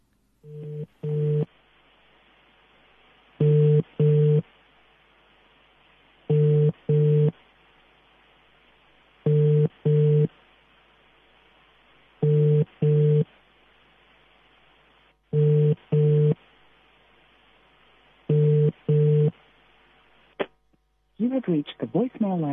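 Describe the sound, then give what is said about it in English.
An unanswered telephone call rings out: seven evenly spaced double-pulse ringback tones, each separated by a few seconds of quiet line hiss. Near the end comes a click, and then a recorded voice begins. “Okay, so we're not able to raise Coco Esther.”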